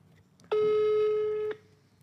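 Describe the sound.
An outgoing telephone call on speakerphone gives a single steady, buzzy ring tone lasting about one second, followed by quiet.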